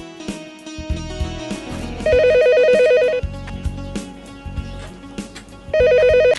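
A telephone rings in two bursts of bright, trilling electronic tones, each lasting about a second. The second ring is cut off at the end, and lower sounds continue between the rings.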